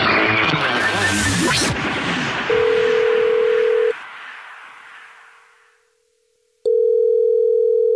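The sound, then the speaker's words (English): A telephone call is placed: after a loud, noisy opening, a steady electronic phone tone sounds, breaks off into near silence, then returns at the same pitch. “It's the Jubal Show, and you texted us at 41061 saying you have a dirty little secret, so we're calling you back.”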